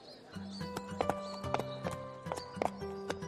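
Horses' hooves clip-clopping as two hired horses set off in Kashmir, a steady run of many sharp clops in an even walking rhythm.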